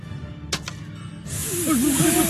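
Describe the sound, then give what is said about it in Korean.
A snake hisses as a staff turns into a snake: a loud, steady, breathy hiss begins partway through after a couple of sharp taps and continues to the end, with a wavering low tone beneath. “지팡이가 뱀이 됐습니다.”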